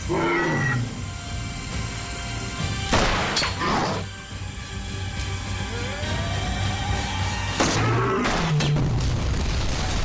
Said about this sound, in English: The gas ignites in a massive fireball